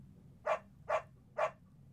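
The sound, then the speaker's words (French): A dog barks three times, with short, evenly spaced barks of equal strength, faint overall and with no voices. “Le chien. Je tiens le chien.”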